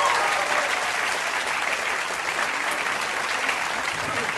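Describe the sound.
Audience applauding as a guest walks on stage: sustained, even clapping at a steady level throughout, with no break.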